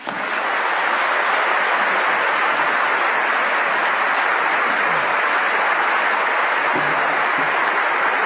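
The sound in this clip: A Princeton audience gives sustained applause welcoming former U.S. Secretary of State Colin Powell to the George F. Kennan centennial opening address. The clapping is loud, dense and unbroken throughout.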